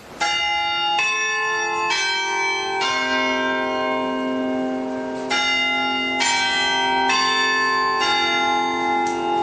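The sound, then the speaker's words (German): Westminster chime rung on the church tower bells of the Red Tower at the market square in Halle: a loud sequence of about nine ringing strikes, each sustaining with rich overlapping overtones into the next, with no voices. “Also zeitlich war es nicht korrekt, aber den Westminster-Schlag, den kennen Sie doch. Ja, so klingt's in Halle. Am Marktplatz vom Roten Turm.”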